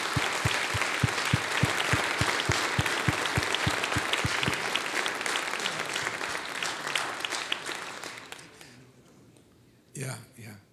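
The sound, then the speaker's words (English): Audience applause welcomes a pastor to the stage at a weekend church service: rhythmic, steady clapping for about four seconds gives way to a dense, sustained ovation that slowly fades, followed by a short burst of voice. “Come on, put your hands together and welcome Pastor Dursa.”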